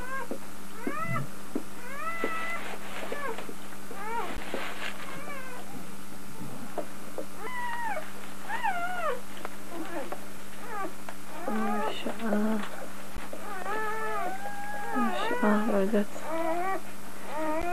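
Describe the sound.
Kittens meow again and again, with many high, thin cries that rise and fall and overlap in quick succession over a steady low hum.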